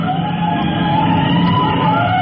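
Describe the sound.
A fire engine siren sounds as a loud, steady wailing tone that holds nearly level throughout, with a low engine rumble running underneath.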